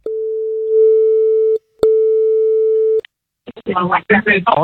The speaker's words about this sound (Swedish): Jag har skrivit upp hans nummer här, slått hans nummer här nu. Jag tänker att vi överraskningsringer upp honom